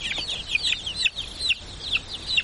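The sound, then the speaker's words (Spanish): Chicken clucking as it is lifted out of a wooden box: many quick, high-pitched chirping calls repeated in a steady run over a low rustling background. “Unas manos sacan un pollo de una caja de madera.”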